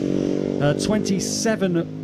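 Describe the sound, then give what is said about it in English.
Racing motorcycle passing on lap 2 of a road race, its steady, high engine drone running beneath a commentator talking. “They've cleared most of it away as we get the second bike through here on lap 2”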